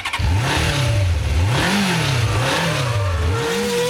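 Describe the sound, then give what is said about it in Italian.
Racing car engines rev loudly and continuously. Their pitch repeatedly swoops up and down as the throttle is blipped, with no talking. “Ma accendiamo i motori.”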